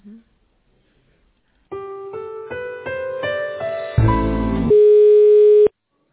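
Telephone tones sound while a call is being connected: a run of short electronic beeps steps upward in pitch, then a brief noisy burst, then a steady held tone lasting about a second before it cuts off.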